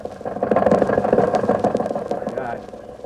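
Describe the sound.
An old Maxwell car engine runs with a dense, chugging, rattling clatter, loud and continuous for about three seconds and easing slightly toward the end.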